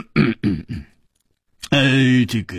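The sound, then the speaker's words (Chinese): A voice imitates a heavy, deliberate cough: a low, throaty throat-clearing sound that ends in a harsh burst, following a few brief spoken syllables and a short pause. “秋思王立刻重重的咳嗽了一声”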